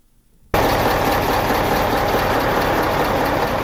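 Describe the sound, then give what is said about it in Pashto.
Idling engines of goods-laden trucks waiting at the Torkham border gate into Afghanistan: a dense, steady low rumble that cuts in abruptly after half a second and holds without pause. “د مالونو ډک دا ګاډي د تورخم په دروازه افغانستان ته دا وړېدو په انتظار دي.”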